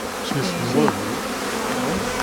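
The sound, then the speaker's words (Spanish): A bee buzzes as it hatches from its honeycomb cell, a steady droning hum whose pitch wavers gently up and down throughout. “Vamos, mejor que visto vamos a ver cómo nace una abeja. Mira, el nacimiento de una abeja.”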